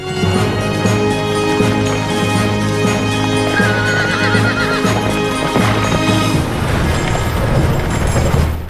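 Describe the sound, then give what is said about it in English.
Horses riding beside a stagecoach, with dense clip-clopping hooves and neighing that stay loud and continuous throughout. “Floyd rides ahead of the stagecoach, the other rangers ride behind.”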